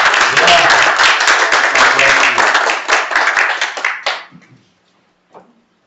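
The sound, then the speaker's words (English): An audience applauds a congratulated woman with dense, loud clapping that thins out and fades by about four seconds. Near-silence follows, with one faint tap. “Give her a hand here.”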